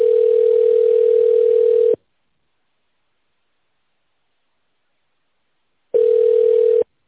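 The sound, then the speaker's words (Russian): A telephone line tone sounds while a call is being connected to a call-centre operator: a steady, even tone holds for about two seconds, then silence, then a shorter burst of the same tone. “Соединяем с оператором колл-центра.”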